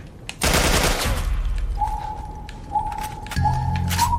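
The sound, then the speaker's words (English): Video game assault rifle fire comes as one loud, rapid burst of shots near the start, followed by quieter thuds and thin electronic tones. “Assault rifle. Yeah.”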